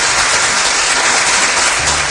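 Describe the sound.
Brief burst of dense hand clapping applause, loud and steady throughout with no voices.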